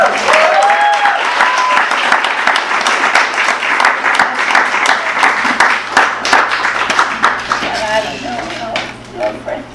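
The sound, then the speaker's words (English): Audience applause welcomes two guests at an afternoon reading event. The clapping is dense and steady for nearly ten seconds, then thins out toward the end. “We're thrilled to have Elizabeth and Olivia with us this afternoon. Please join me in giving them a warm welcome.”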